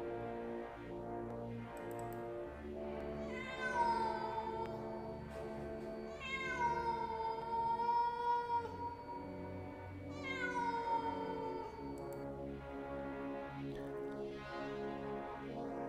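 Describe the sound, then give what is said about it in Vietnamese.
A soldier's cat yowling strangely in wartime, giving three long, drawn-out wails with wavering pitch. Each cry rises out of a steady droning background and trails off, with quiet gaps between them. “Nhưng con mèo của Long đột nhiên gào rú rất lạ lùng.”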